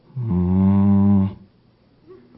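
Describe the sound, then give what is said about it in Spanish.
A voice imitating a cow's moo: one long, low, steady lowing tone held for more than a second, loud and alone, then breaking off into quiet. “era como un mugido”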